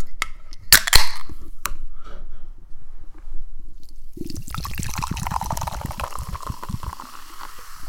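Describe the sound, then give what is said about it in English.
A cold can of tropical lime drink cracks open with a few sharp clicks over quiet handling noise, then the drink pours steadily into a glass with a loud, bubbly, fizzing gurgle. “Let's do lime first. All right. Crack open this tropical lime. Crack open the cold one.”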